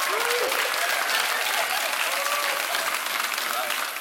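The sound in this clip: An audience applauds after a baptism at a church service, with dense, loud, even clapping that eases slightly at the end.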